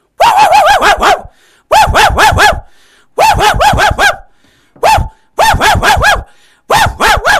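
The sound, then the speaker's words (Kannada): A dog barking at people it sees arriving at a house gate: loud, sharp barks delivered in rapid bursts of several at a time, separated by short pauses, with one lone bark partway through. “ಈ ನಾಯಿ ನಮ್ಮನ್ನು ನೋಡಿದರೆ ಬೊಗಳ್ತದೆ ನೋಡಿ.”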